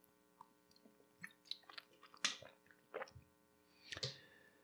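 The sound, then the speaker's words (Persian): Someone takes a sip of a drink, with a series of quiet wet mouth clicks and slurps coming in irregular bursts. “یه قلوب بخوریم”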